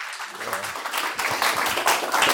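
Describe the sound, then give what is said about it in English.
An audience applauds to welcome a speaker to the stage at a Christian gathering. The clapping starts fairly light and builds into fuller, denser applause from many hands. “So let's, if you would join me just in a round of applause and welcome him up.”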